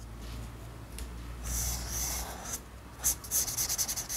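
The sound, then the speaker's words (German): Pencil scratching on paper while sketching the skeleton of a ship model: faint, soft rubbing strokes, ending in a run of quick short strokes. “Sein neues Projekt beginnt er erstmal mit einer Skizze. Ich mache jetzt eine Zeichnung von das Skelett,”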